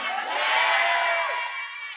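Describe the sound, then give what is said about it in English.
A church audience shouts "I am blessed" together with raised hands, a loud, sustained mass of voices that holds steady and then eases slightly at the end. “Lift up your two hands one more time and shout, I am blessed!”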